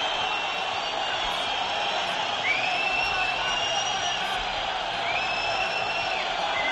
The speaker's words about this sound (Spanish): La bronca del público, ganó el Valladolid 0-1, Escalera. Escuchen.